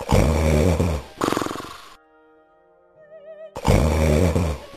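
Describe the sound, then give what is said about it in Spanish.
Loud, rumbling snoring of an ogre in a children's tale: two long, harsh, pulsing snores separated by a quiet stretch of soft, wavering tones. “enseguida se oyeron unos ronquidos que temblaba toda la casa.”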